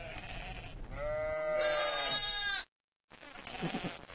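Sheep bleating, a ewe with her newborn lamb: a long, wavering, fairly faint bleat that climbs higher partway through, then a short silence before more bleating and rustling over low background noise.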